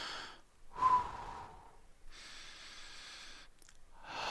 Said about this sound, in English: Deep breath.